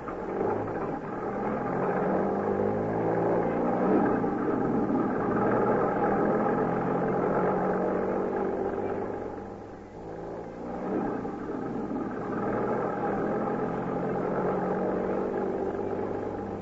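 A car drives along with a steady engine rumble and a low, continuous hum; the level dips briefly midway and then returns. No voices are heard.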